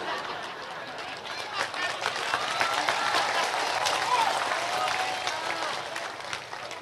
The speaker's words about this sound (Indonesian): DPR-nya melok tepuk tangan